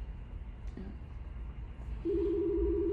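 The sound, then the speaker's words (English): A phone sounds during a conversation: after a brief faint chirp, a steady low warbling ring starts about two-thirds of the way in and continues to the end. “So I apologize, that's my phone.”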